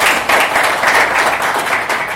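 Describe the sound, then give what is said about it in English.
Audience applause for a former governor being honoured at a public event: steady, dense clapping from many hands, loud and even throughout. “And having you here, let's clap for him once again.”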